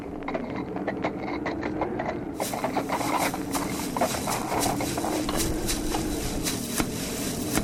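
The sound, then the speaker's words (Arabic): Slow hoofbeats of a sweaty horse walking calmly after a ride, with many soft, uneven clops over a steady background rustle. “بركت يا فرسي العزيز، تحرك هكذا بهدوء حتى يجف عرقك.”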